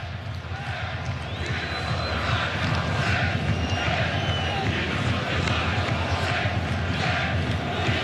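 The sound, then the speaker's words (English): Moroccan football supporters cheer in a stadium in Foxborough during a match against France, a loud, steady roar of massed crowd noise that holds at an even level for the whole stretch. “It's the sound of the Moroccan supporters. In fact, you're seeing the French, you're hearing the Moroccans.”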